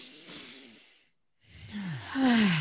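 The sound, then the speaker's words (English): A deep breath is drawn in with a soft, airy rush, followed by a brief silence and then a louder exhale that ends in a voiced, falling sigh. “Y'all, real quick, take some 1 big deep breath.”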